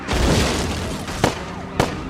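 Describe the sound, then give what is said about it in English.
Two sharp gunshot cracks fired at a police car during a high-speed chase at about 110 miles an hour. Each short bang rises above a loud, constant roar of road and engine noise. “I believe he just shot at me. He shot my window out.”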